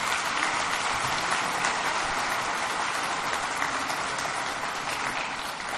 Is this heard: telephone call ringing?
no